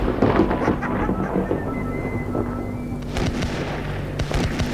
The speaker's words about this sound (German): Wir kamen nicht weiter, hörten wir Schüsse aus der Nähe.